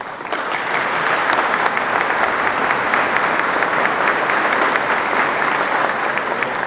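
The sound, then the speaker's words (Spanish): Strong, sustained applause from the audience at an inauguration ceremony: a dense, even clatter of many hands that starts almost at once and holds steady for about six seconds, with no voices over it. “Especialmente y para cada uno de ellos pido un fuerte aplauso.”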